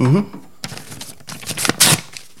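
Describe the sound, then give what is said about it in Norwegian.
A letter being opened with a knife: a few bursts of scraping, crinkling paper noise, getting louder toward the end, after a brief voice at the start. “det en kniv, ja, som jeg bruker til å åpne brev”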